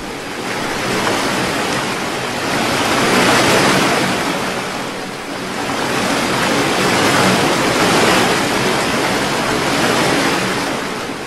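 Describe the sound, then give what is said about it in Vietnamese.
Big ocean waves crash and roar at sea, a dense, loud wash of surf that swells in two long surges with no voices. “Dưới ánh sáng đèn pha, sóng lớn dựng lên như một bức tường trắng loá, không khác nào thiên quân vạn mã đang ào ạt xông tới.”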